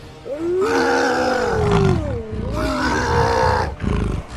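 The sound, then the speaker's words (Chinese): Wolves howl and orc wolf riders give roaring war cries as they charge into city streets. The sound is a loud, continuous mass of roars with a wavering, gliding howl, swelling in two waves. “宁静的气氛被狼骑兵们冲进城市街道时的战吼与狼嚎打破了。”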